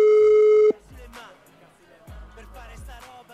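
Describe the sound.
A telephone rings on a radio call-in line: one steady electronic ring tone lasts under a second and cuts off abruptly, and quieter, uneven sounds follow.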